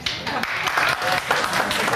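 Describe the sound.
An audience in a hall claps in answer to a show-of-hands question, with only part of the room joining in. The clapping is moderate and uneven and comes in waves, with voices mixed in.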